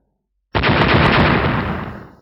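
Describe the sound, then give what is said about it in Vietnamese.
A single loud roaring explosion sound effect bursts out of silence and then rumbles and fades away over about two seconds. “Tiếng nổ vô tận cuồng bạo, sóng xung kích vô tận.”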